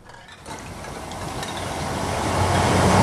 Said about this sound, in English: Trains trundle under the railway bridge.